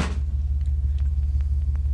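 Low, steady engine rumble from a car stopping to pick someone up, continuous and deep with no voices.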